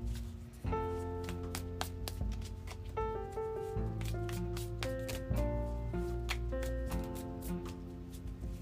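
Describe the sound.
Tarot cards being shuffled, a run of many crisp riffling snaps and soft slides played over steady background music.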